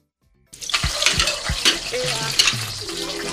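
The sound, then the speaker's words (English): Dishes are washed by hand in a kitchen with the stove on. After a moment of silence, dishware clatters with a few sharp knocks, then water splashes and crockery rattles steadily at moderate loudness. “I'll finish washing these wares.”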